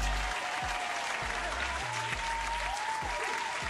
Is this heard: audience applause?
yes